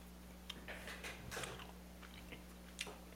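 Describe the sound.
Crunchy chewing of sour blue candies, a couple at a time in the mouth: a few soft, irregular bites and mastication noises, faint and with no talk.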